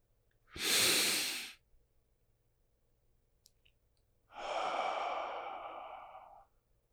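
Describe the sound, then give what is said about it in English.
A deep breath drawn in, then a long, slow exhale, as part of a guided relaxation exercise. Both breaths are soft, airy and clearly audible, separated by a few seconds of near-silence, with the exhale lasting longer than the inhale. “Take a breath in, then exhale.”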